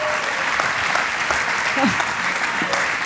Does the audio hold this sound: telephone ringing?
no